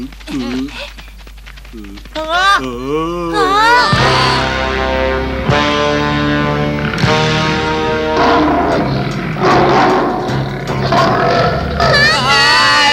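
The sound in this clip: Lions of a lion army roar in a jungle, with loud, wavering growls and cries. The sound jumps sharply in loudness near the fourth second, and dense tonal sound runs continuously beneath the roars until the end.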